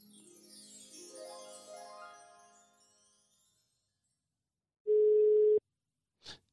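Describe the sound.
A telephone ringing tone as a call connects: one steady, mid-pitched tone burst lasting under a second, preceded by a fading musical jingle and followed by a brief high blip.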